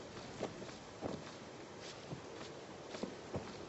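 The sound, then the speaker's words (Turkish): Footsteps of a boy walking along the foot of some rocks: a few soft, irregular steps, faint and spaced unevenly, with no voices. “Kısa saç çocuk ciddi, sert bir ifadeyle kayaların dibinden yürüyerek ilerliyor.”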